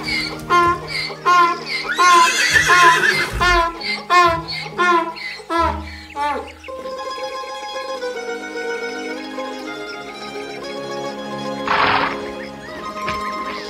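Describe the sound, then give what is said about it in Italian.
A horse neighs, with hooves clip-clopping, in a children's fairy tale cartoon; a loud whinny stands out near the end, following a stretch of layered tonal sound. “Ehi, cavallo! Cosa c'è?”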